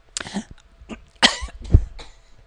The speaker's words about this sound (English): Sorry. I went to talk and I inhaled saliva. Inhaled phlegm?